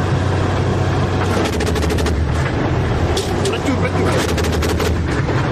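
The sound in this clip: Dense, sustained bursts of gunfire aimed at attacking Shahed kamikaze drones over the Odesa region at night, forming a loud, continuous rapid crackle with sharp peaks throughout.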